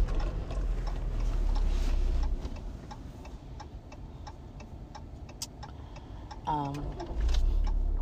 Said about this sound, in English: Hold on. I'm turning, family. I'm turning. If y'all ain't know, your sister's driving.